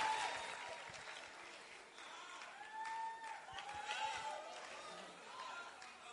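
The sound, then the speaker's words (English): Audience applause at a church Bible school testimony service as a woman walks on stage: dense, steady clapping that runs the whole length, with cheering voices mixed in. “Put your hands together for a powerful testimony. We have another testimony. Please help me welcome Irajwa to share her testimony with us. Put your hands together as she comes on stage.”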